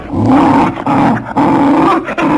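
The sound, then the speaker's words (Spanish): A nervous delivery man's dog growls in a loud, low, rumbling snarl, broken into a few sustained bursts with brief pauses between them and no voices over it. “el perro del repartidor, que había estado olfateando al posadero, en cuanto vio al hombre, se agitó nervioso. ¿Qué diablos le pasa a tu perro?”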